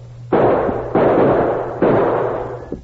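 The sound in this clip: Gunshots boom in a Western-style shootout along a creek bank: three loud, heavy blasts, each trailing off in a long decaying rumble, then a faint final pop at the end.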